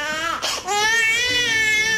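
A small child cries after being dropped, a loud, sustained wailing with a short catch of breath early on, then continuous high crying.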